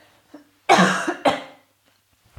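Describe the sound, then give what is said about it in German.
Two harsh coughs from a person who has just choked on something: loud, rough bursts in quick succession, then quiet. “Entschuldigung, wenn sich jemand jetzt nicht wohl fühlt, wo ich gehustet.”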